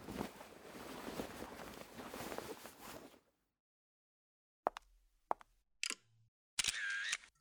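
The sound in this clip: A camera taking photos: after a stretch of rushing wind-like noise and a short silence, a few sharp, brief shutter clicks sound, followed by a slightly longer, louder burst at the end.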